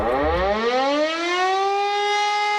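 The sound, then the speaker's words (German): A civil defense warning siren sounds during a nationwide warning day test in Germany. Its loud, continuous wail rises in pitch at the start, then levels off into a steady, sustained howl. “Freuen Sie sich schon mal, heute ist bundesweiter Warntag. Um 11 Uhr werden auch in Berlin alle 420 Sirenen ausgelöst,”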